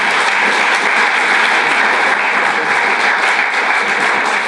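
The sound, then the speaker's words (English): Audience at a seminary gives warm applause to welcome a morning speaker. Dense, even clapping holds at a steady level throughout, with no voices above it. “Can we just give him a nice warm heritage welcome?”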